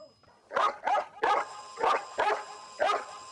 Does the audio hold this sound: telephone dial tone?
no

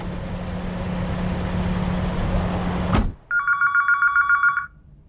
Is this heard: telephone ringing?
yes

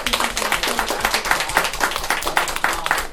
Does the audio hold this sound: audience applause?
yes

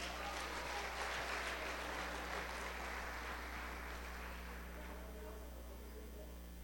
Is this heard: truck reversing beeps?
no

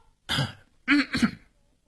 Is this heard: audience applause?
no

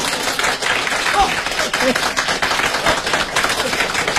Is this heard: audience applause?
yes

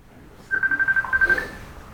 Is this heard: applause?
no

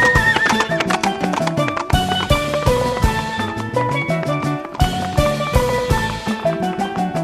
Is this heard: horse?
yes

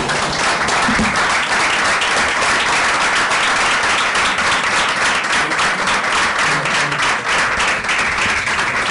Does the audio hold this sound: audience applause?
yes

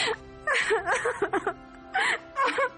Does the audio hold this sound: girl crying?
yes

